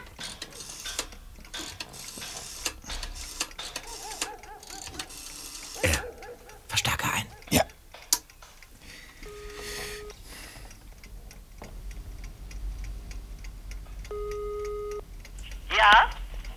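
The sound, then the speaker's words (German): Mechanical clicks and ratcheting of a telephone being dialed to place a call, with a few bursts of clicking, then two short steady tones and a sharp squeak near the end. “Ich werde sie gleich anrufen.”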